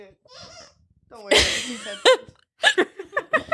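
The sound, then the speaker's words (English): Hiccups from a person speaking: a few sharp, abrupt bursts, one of them loud and noisy, between short stretches of talk. “so sorry for the hiccups”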